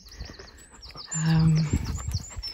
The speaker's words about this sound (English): You can hear the bird song there in the background.